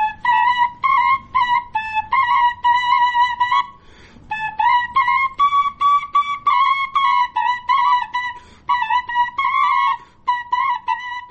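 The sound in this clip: Two shpeli flutes are played together at once, their bright, clear, whistle-like tones sounding in unison. Many short, rapidly articulated notes move in a lively rhythm, with one brief pause near the start, and no voices.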